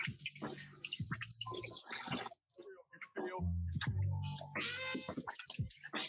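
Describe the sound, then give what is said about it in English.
Running water splashes as hands are washed, with irregular clicks and clatter in broken bursts and a short near-silent gap partway through. “I'm going to wash our hands because otherwise this is going to be super difficult.”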